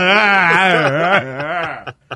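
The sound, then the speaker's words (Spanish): A man's voice imitates a boy crying in a sustained, wavering wail that slowly loses strength and breaks into a few short, faint breaths at the end. “See, that's crying like a boy.”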